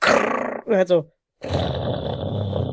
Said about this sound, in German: Ich nehme mal seine Bellen auf